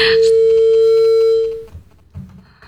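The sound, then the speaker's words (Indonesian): A steady electronic tone sounds as a telephone line cuts off during a radio call-in show. The single held beep lasts about a second and a half, then stops abruptly, leaving faint low noise. “Oke, ternyata terputus lagi teleponnya ya.”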